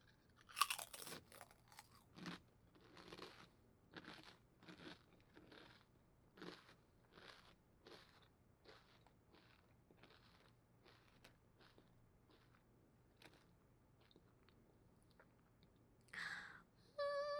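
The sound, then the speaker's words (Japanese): Potato chips crunch loudly while being eaten, with many sharp, crisp bites and chews in an irregular rhythm and a louder burst of crunching near the end. No one speaks. “やっぱりポテトチップスは美味しいな。このパリっていう音もいいよね。”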